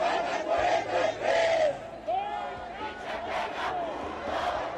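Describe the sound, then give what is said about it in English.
A crowd of protesters shouts and chants loudly in the streets of Mexico City on the anniversary of the Mexican Revolution, over 43 missing teacher trainees. Many voices swell together in rising and falling cries, unbroken throughout. “On the 104th anniversary of the Mexican Revolution, it is the sound of protesters being heard in the streets.”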